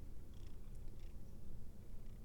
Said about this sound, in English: Well, if you're just going to sit here and keep meowing, let's talk some more.